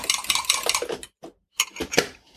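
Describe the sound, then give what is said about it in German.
A utensil clinks and clatters against a bowl while stirring a vanilla and cinnamon mixture, with rapid knocking, a short pause, then a few more sharp taps. “rühr noch ein bisschen rühren, rühren, rühren, rühren.”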